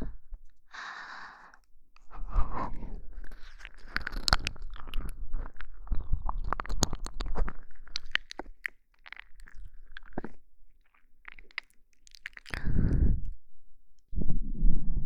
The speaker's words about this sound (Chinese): 一点都不好吃，甚至一点肉味也没有。你都被我吞进来了，